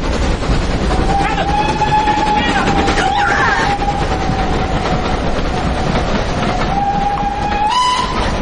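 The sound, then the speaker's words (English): An express train passes through a station with a loud, continuous rumble and rattle, while a long, steady whistle-like tone holds almost unbroken across the pass. “I just wanted to see the express go through.”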